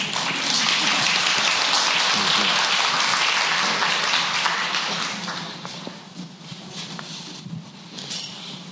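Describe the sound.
An audience applauds to welcome a guest speaker, with dense, steady clapping that thins and softens after about five seconds, then carries on at a lower level.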